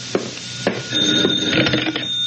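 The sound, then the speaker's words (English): A telephone rings with a steady, high metallic bell tone, punctuated by a few sharp clacking strikes. “And then the phone rang. That's the phone, comrade. It's for you.”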